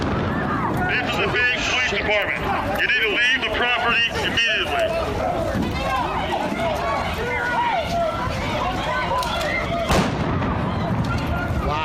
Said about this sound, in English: Phoenix PD fired a shotgun into the air. I believe it was blanks, but you can't really tell. But it's clearly like a gun being shot.